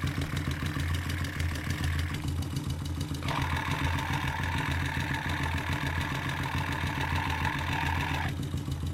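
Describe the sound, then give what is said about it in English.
Gears spinning inside a motorcycle transmission make a steady mechanical whir over a low idling engine hum. A higher whine drops out briefly, returns stronger, then cuts off near the end. “Now we're at the transmission. You can hear gears spinning.”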